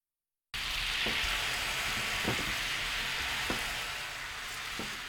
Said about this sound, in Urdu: Frying pan کو دھو کر اس میں سویا سوس، چینی اور پانی ڈال کر ملائیے۔ اب فرائنگ پین کو درمیانی آنچ پر رکھ کر سوس کو گاڑھا کر لیجیے۔